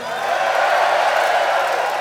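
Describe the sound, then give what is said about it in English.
Crowd cheering at a rock concert, a loud, dense roar of many voices at a steady level, sustained briefly without a break. “Give yourselves a fucking cheer.”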